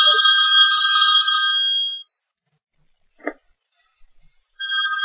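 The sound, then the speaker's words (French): A mobile phone ringtone goes off during a religious lesson: loud, bright electronic tones ring steadily for about two seconds, break off into near silence broken by a few faint knocks, then the ringing starts again. “C'est possible de mettre en silence vos trucs ou quoi? Je sais, ça sonne tout seul en même temps. Donc, il vaut mieux toujours quand quelqu'un passe le téléphone de mettre en silence, parce que ça peut gêner”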